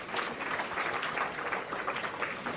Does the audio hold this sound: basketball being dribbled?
no